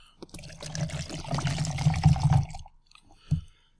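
Liquid is poured into a container as a gurgling, splashy stream for a couple of seconds, swelling in loudness before it stops, followed by a single soft knock.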